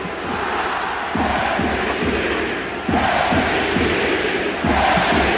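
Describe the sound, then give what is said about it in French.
A basketball arena crowd chants for Victor Wembanyama in a loud, rhythmic unison refrain over pulsing low beats. The volume steps up with each repetition. “Alors ce genre de chant est habituel pour Wemby, mais celui-là, il a particulièrement fait trembler les murs de la salle.”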